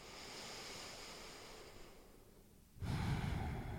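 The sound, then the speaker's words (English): Slow breathing flows in and out through the nose, a soft airy hiss that fades away, then, after a brief quiet gap, returns as a fuller, louder breath. “just that very soft flow of the natural breath in and breath out. Keep the flow of the breath moving through the nose.”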